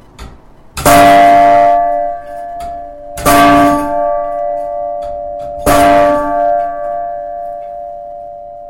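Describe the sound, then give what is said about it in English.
A bell ringing on the hour, struck three times at steady intervals, each loud clang leaving a long, humming metallic ring that carries on into the next strike. “If you like, I could even force this to ring. Yeah, that'd be cool. Okay. Do you have to go upstairs? I do. Okay. So. Here is the sound of the bell that rings on the hour.”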